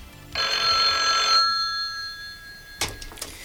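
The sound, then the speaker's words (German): A telephone rings once with a bright, trilling tone lasting about a second. A thin tone lingers afterward, and a short clatter follows near the end. “Sein Anruf ließ nicht lange auf sich warten.”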